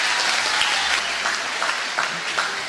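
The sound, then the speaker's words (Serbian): A crowd applauds at a local election campaign rally, a dense, even wash of many hands clapping that holds at a steady level throughout. “A jedan aplauz za to.”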